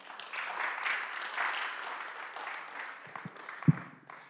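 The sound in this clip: A church audience at a Sunday service applauds to welcome visitors. The clapping is steady and broad, then gradually thins out toward the end.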